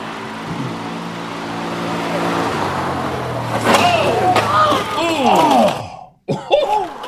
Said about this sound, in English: In the state of Maine, they're doing a TV report, mm-hmm. and some people go drive by in an ATV.